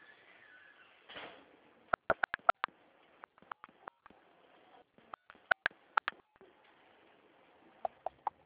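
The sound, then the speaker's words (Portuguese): Telephone keypad tones sound as a CPF number is entered during a phone call: many short, sharp beeps in quick clusters, separated by brief pauses. “Digite, por favor, o número do seu CPF.”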